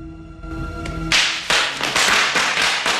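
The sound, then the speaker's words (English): Bubble wrap popping underfoot in a cluttered storeroom, a few sharp, bright pops in quick irregular succession, breaking in after a sustained tonal passage. “As he sneaks further into the room, he steps onto a sheet of bubble wrap.”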